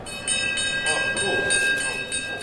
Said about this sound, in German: Drinnen im Frankfurter Börsensaal läutet jeden Morgen um 8 Uhr die Börsenglocke den Handelstag ein.